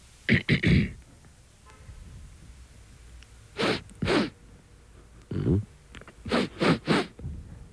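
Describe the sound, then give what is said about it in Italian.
A man's voice imitates an 18-year-old with a cold sniffling: short, sharp nasal snorts arrive in quick clusters, a rapid triple at the start and several more later, each a breathy burst with quiet gaps between. “Afflitto da raffreddore. Va bene. Che tira su col naso.”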